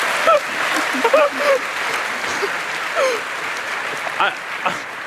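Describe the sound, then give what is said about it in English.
Audience applause during a talk about train travel, sustained clapping that stays fairly even throughout, with scattered voices and calls rising through it. “one enjoys how that gets a larger applause than our introduction”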